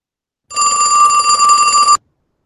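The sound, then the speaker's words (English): A telephone bell rings in one continuous burst of about one and a half seconds. The tone is bright and shrill with a steady metallic buzz, heard alone. “That sounded like Maude's phone.”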